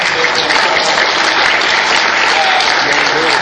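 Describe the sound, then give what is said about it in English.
A developer meeting audience loudly applauds a code contributor. The clapping is dense, steady and sustained throughout, at a constant high level. “Everybody give Ernest a round of applause for contributing”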